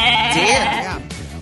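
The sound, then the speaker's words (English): A billy goat lets out a single loud, wavering bleat that quivers briefly before trailing off. “Bill Cianis and his pet Billy Goat were ejected from Wrigley Field during Game 4 of the 1945 World Series, and so began the curse of the Billy Goat.”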